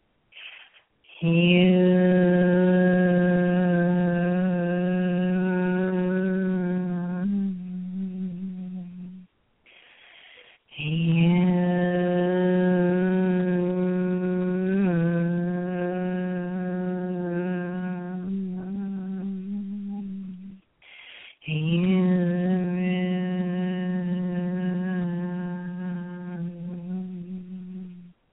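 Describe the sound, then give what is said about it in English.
A HU chant sung aloud as three long, steady vocal tones, each held for several seconds, with short breaths in between. The tone is rich in overtones and fades slightly toward the end of each note. “I'm going to take you through just a really brief, what we call a Hu chant,”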